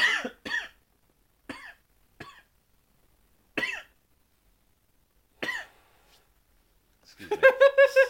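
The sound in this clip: A series of short, harsh coughs after smoking a blunt, each burst separated by silence and spread irregularly, before a voiced, throaty sound rises at the end.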